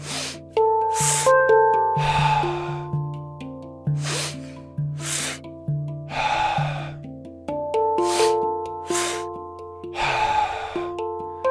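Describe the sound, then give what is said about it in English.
Shamanic breathing through nose and mouth: a repeated cycle of forceful, breathy inhales and exhales, rhythmic and loud, over sustained musical tones. “I'm going to cue shamanic breath. In, exhale, reset. Nose, mouth, exhale, reset.”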